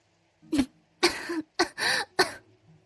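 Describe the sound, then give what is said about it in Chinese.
A woman lightly coughs and clears her throat: several short, dry throat-clearing bursts in quick succession, with no other sound. “谢桥轻咳了两声，然后才慢条斯理的看了过去。”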